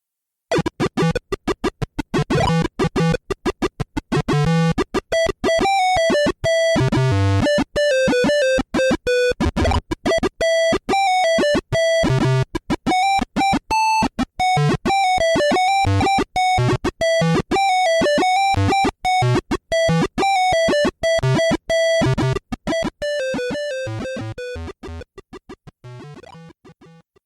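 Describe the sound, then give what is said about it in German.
Video game intro music played through a PC speaker: a buzzy, square-wave melody of rapid notes that sounds almost multi-voiced. It plays continuously and loudly for nearly half a minute, then fades at the end. “Und da hören wir mal die Intro-Musik. Und es ist kaum zu erkennen, Gunnar, dass das der PC-Speaker sein soll, weil es eigentlich mehrstimmig klingt,”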